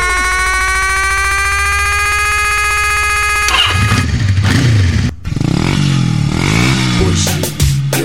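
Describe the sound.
A Honda Biz motorcycle engine revving, a loud, steady harmonic whine that slowly climbs in pitch for a few seconds, then breaks into rough, clattering roaring bursts that rise and fall.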